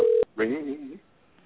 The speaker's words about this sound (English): I hate dead air, but I got to dial some digits. Here we go.